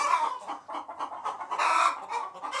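A hen clucking after settling onto the nest: short, nasal clucks in an uneven series, fairly loud and alone, with no talk.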